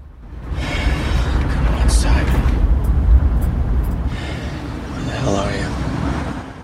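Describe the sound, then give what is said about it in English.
A car drives down a tree-lined street and passes under a large metal bridge. The engine and road noise make a steady low rumble that swells, eases, then swells again with a soft whoosh. “Art drives down a tree-lined street, passing under a large metal bridge.”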